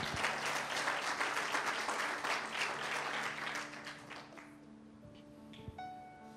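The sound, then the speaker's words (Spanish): Audience applause at a church service, a steady wash of many hands clapping for about four seconds that then thins and fades, leaving faint sustained musical tones. “Denle un aplauso fuerte al Señor.”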